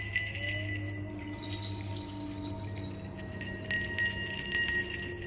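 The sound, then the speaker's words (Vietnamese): A bell tied to an old persimmon tree rings on a windless day with dry, sharp tones, bright clinking notes recurring throughout over a steady low hum. “tiếng leng ca leng keng nổi lên càng rõ. Cái chuông buộc ở trên cây hồng già cứ thế kêu lên những âm thanh đanh khô”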